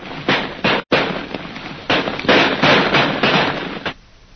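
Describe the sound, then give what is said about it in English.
Rifle shots fired over the heads of a Maharaja's men several times in quick succession, forming dense harsh bursts of cracking gunfire with one brief gap near the start. “We'll have fire over their heads. The Maharaja's ahead, Jim. Yeah, I can see him. We'll shoot several times as fast as we can, Lil.”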